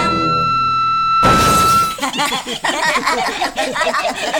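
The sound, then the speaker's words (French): A sustained high sung note breaks off into a loud, bright burst of crystal glass shattering, followed by chuckling laughter. “j'ai encore brisé un verre de cristal avec ma voix.”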